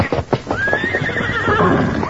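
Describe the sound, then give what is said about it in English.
Frightened horses whinny as a fire approaches. A loud, drawn-out neigh holds a high pitch and then falls away, with hooves clopping beneath it. “Oh, horses are scared. They smell it, too.”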